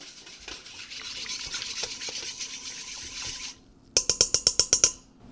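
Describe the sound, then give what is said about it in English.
A whisk stirs a yeast mixture in a bowl for pretzel dough, making quick, even scraping strokes for several seconds. After a brief pause come about seven sharp, evenly spaced clinks. “speeding it along with a whisk a little bit.”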